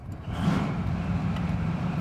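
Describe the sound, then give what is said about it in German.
Engines of Leopard main battle tanks in their latest version rumble as crews start them up on a train's cargo after an exercise, a dense, loud, low drone that holds steady throughout. “seine Fracht Leopard-Kampfpanzer in der modernsten Ausführung, zurück von einer Übung. Die Besatzungen sprinten los, öffnen die Luken der Stahlkolosse. Motor an!”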